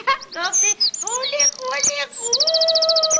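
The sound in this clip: Chicks chirping in many high, short peeps, ending in a quick run of evenly spaced peeps, mixed with a person speaking.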